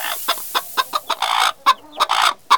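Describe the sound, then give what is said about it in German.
A hen clucks while her egg is being taken away: a rapid run of short, sharp clucks broken by a couple of longer, drawn-out calls, fairly loud and with no talking. “ich glaube, das Huhn findet es nicht so gut, dass ich sein Ei wegnehme. Das ist die Henne, ein weibliches Huhn.”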